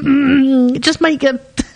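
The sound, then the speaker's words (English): Coughing and throat-clearing noises made close into a microphone: a drawn-out voiced groan, then a few short, loud, rough bursts in quick succession. “You don't get the coughing and the sneezing and the noises down the microphone.”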